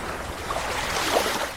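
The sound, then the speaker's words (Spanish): Sea waves wash in a steady, broad hiss, swelling slightly partway through with no voices over it. “A mí me encanta eso, que sabes que me agrada mucho el mar.”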